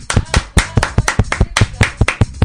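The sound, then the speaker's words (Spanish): Hands clap in applause for someone: about a dozen sharp, loud claps in a quick, steady, even rhythm. “¡Wow! Un aplauso para Lorna.”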